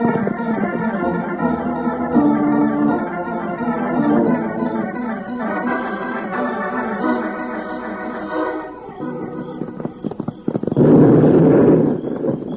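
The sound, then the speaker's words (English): A heavy, rumbling blast from blasting up on a hill at night bursts out loudly near the end, after a long stretch of other sounds, and lasts about a second before cutting off. “Bill, there goes another blast. That makes four. Yeah, Jingles. They're coming from up on that hill ahead of us.”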